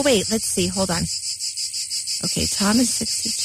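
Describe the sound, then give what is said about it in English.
Periodical cicadas give their mating call as a steady, high, pulsing buzz that drones on throughout, while a voice talks over it in short bursts. “So listen up, guys. This is the song of love. This is the mating call of the cicada.”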